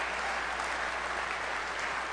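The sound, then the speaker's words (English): A church audience claps hands in praise: dense, continuous applause of many hands, steady and loud throughout with no break. “Give the Lord a hand clap of praise and let him know it's not a secret.”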